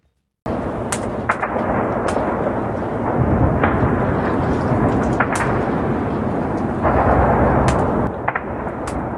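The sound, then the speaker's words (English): Missile strikes and shelling explosions in Zaporizhzhia, Ukraine, as Russian forces shelled the nuclear power plant: a dense, continuous rumble of blasts with many sharp cracks and booms throughout, loud and without speech. “The sounds of missiles that have already become too familiar to the people of Ukraine engulfed the city of Zaporizhia as Russian forces shelled and seized its nuclear power plant”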